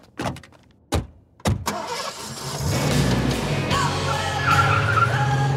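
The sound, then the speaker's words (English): A car speeds away with squealing, skidding tires and a loud engine roar that builds and holds steady after a few sharp knocks at the start. “There they go, racing off with the evidence before I can even begin to get my scoop.”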